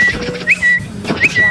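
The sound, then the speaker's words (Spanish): Whistling imitates a tiny bird's song in a short run of high, thin chirps that swoop upward, repeated twice in a lively rhythm. “Y de repente entró un pajarito chiquitico y me dio tres vueltas aquí arriba y empezó a silbar.”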